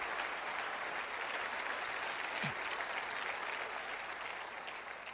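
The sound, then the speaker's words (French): A church audience gives an ovation, many hands clapping in a dense, continuous, even roar of applause that holds steady throughout. “Et laissez une ovation monter dans ce lieu pour le rêve de Dieu pour chacun d'entre nous.”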